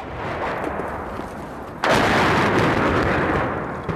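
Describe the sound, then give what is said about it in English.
Artillery fire rumbles in a grinding war of attrition, a low continuous roar that jumps suddenly louder partway through and stays heavy to the end. “But what makes it doubly, trebly worse is, of course, the rumble of artillery fire.”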